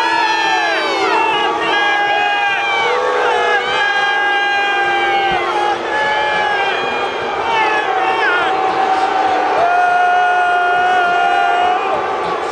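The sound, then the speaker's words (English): Stadium crowd at an NFL game reacting as commissioner Roger Goodell walks onto the field before kickoff: a loud, sustained roar of many voices with shouts and drawn-out jeering tones that never let up. “And that is what it sounds like when the commissioner of the National Football League comes on the field to a place where he is more than mildly disliked.”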